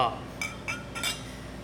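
Glasses clink in a toast at a brewery: a few short, bright chinks ring out at uneven intervals over a low, steady background.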